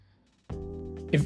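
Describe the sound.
A single low, croaky burp that holds steady for nearly a second and swells louder just before it ends, heard alone with no talk.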